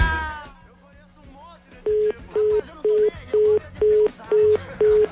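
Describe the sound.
An unanswered telephone call: after brief talk, seven short, evenly spaced beeps repeat at a steady mid pitch in a regular on-off rhythm.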